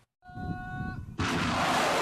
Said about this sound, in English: These fired at the strategic port of Mocha, which they took yesterday from government forces.